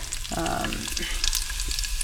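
Cumin seeds frying in hot ghee in a pan on an electric hob, a steady, dense crackling sizzle with fine popping throughout, loud and continuous, with no talk.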